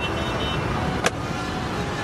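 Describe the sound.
Steady, even drone of a car with a failing automatic gearbox, running without change throughout, broken once by a single sharp click midway.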